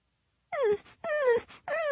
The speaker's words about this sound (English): The white dog continued to whimper.